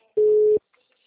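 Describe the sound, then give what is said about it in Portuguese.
A telephone line tone at the start of a recorded phone call: one steady, mid-pitched beep lasting under half a second, then near silence. “Deixa eu fazer minha ligação gravada. Vou fazer uma ligação gravada.”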